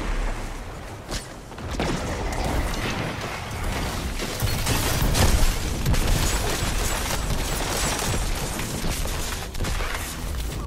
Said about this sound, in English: As soon as I get up there, I get shot to the face with a Jotun.